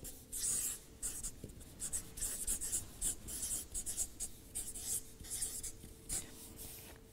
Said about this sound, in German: ich schreibe mal kurz mit.